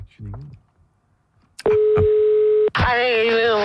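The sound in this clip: A telephone line tone as a host phones a listener: a steady electronic tone holds for about a second, breaks briefly, then gives way to a second buzzing line tone.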